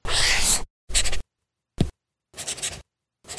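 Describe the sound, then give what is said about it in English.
Stylus scratching across the textured screen of a Remarkable Paper Pro paper tablet, heard in five bursts of dry, papery scraping separated by silent pauses. One burst is very short and the others last about half a second. “That's not paper. It's the sound of the new Remarkable Paper Pro, rewriting the future.”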